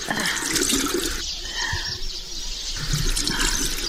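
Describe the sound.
Water splashes and runs steadily as a child's face is washed, a continuous soft wash of liquid sound with no clear voices.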